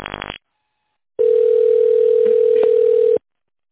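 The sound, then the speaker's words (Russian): A steady ringback tone sounds on a phone line while a call to a trading company's office connects. A short burst of noise comes first, then one long, even, mid-pitched tone that holds for about two seconds before cutting off. “Звонок.”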